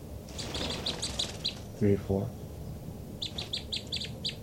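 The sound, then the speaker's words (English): Birds chirp in many quick, high twittering notes that come in two busy clusters, with a brief louder, lower sound between them. “Both birds. Recording the birds again.”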